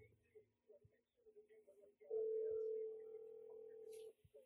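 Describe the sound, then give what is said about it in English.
A steady telephone line tone plays while a call to Phil is dialed, holding for about two seconds after some faint sounds, then stopping. “Phil is currently being dialed.”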